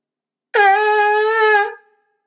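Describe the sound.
A shofar sounds a single tekiah, one long blast: a bright, horn-like tone held steady at one pitch for just over a second, then quickly fading out, with nothing else heard.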